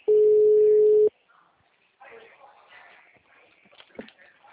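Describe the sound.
A telephone ringing tone on an outgoing call: one steady, loud, mid-pitched tone lasts about a second, then stops and gives way to faint, soft voices.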